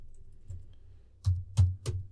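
Keys clicking as a search is typed on a keyboard: three sharp, well-spaced clicks in the second half, after one fainter tap, over a low hum.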